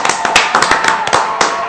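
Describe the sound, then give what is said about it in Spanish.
Short burst of scattered clapping in a comic-themed show: irregular sharp claps from a few hands over a steady hiss, lasting under two seconds. “Su nombre es Ramón Espinosa, que me gustaría, Lorna, si le puedes mandar un aplauso.”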